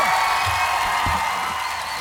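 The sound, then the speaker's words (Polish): Applause and cheering from a concert crowd in Warsaw, a dense, steady wash of clapping that keeps an even level throughout. “Wielkie brawa, Warszawa!”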